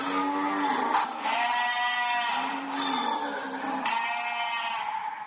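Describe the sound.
Sheep and goats bleat among live livestock herds exported through Djibouti. Several overlapping, wavering calls with rich harmonics carry on fairly evenly for the whole stretch.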